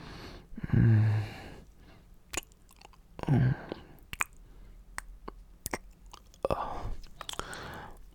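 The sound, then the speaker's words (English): Wet kissing and lip sounds: several moist smacks and mouth noises, loud and close, with soft breathy sounds in between. “and I slightly tickle your neck with my lips as I just caress them with my ever loving kisses.”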